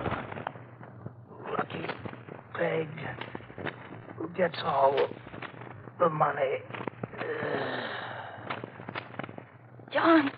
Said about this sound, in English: I had to shoot.